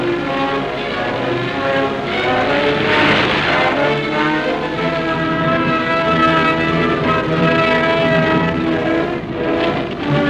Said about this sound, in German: Die zweite Stuckerwelle stößt der ersten nach.